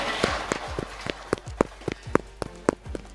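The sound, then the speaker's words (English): Quick footsteps of someone in a yellow hazmat suit running past, many crisp thuds in an even, rapid rhythm with no pause. “Did someone just run by wearing a yellow hazmat suit? Or am I crazy?”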